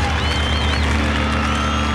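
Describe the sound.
Crowd at the Woodstock festival cheering, a dense, steady roar of many voices with whistles rising above it.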